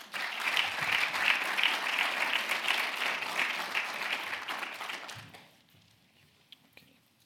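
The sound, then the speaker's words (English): Glasgow audience applauding to welcome a speaker: warm, dense clapping holds steady for about five seconds, then fades quickly into near quiet. “So without further ado, can I ask you to give a round warm welcome, Glasgow welcome, to Jean-Francois”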